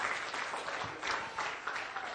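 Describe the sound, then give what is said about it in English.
An audience applauds during a church service: steady, dense clapping, fairly faint, with slight swells in intensity across its length. “Give him a hand of praise here tonight.”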